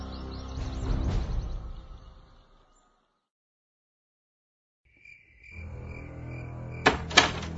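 A key unlocks a door with two sharp clicks over steady chirping insects, after an earlier sound fades into a few seconds of silence.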